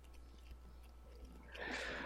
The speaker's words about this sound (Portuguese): meu filho me deu um sanduíche pra comer aqui do nada. Por que, cara? Por que isso? Você tá comendo? Bom, tô comendo.